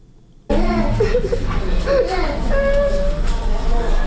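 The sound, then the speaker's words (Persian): Children crying in a hospital cancer ward: several loud, overlapping wailing and whimpering young voices that start abruptly after a quiet moment and continue without a break. “این صدای گریه کودکانی است که همکنون در بخش تداوی سرطانی شفاخانه ساعت طفل اندرا گاندی در کابل بستری هستند.”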